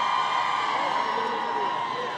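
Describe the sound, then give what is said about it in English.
Women cheering in the bleachers at an election rally for Saeed Jalili in Iran, a loud, continuous, high-pitched crowd cheer with no break. “These cheers came from the women's section. Hundreds of women sitting in bleachers, every one dressed in black under the blazing sun.”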